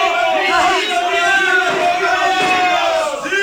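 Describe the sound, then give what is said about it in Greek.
A crowd cheering after a vote to elect a governor, with many voices shouting together in loud, sustained celebratory cries that hold strongly throughout. “Το ψήφισαν! Ψήφισαν κυβερνήτη και πανηγυρίζουν αδερφωμένοι όλοι!”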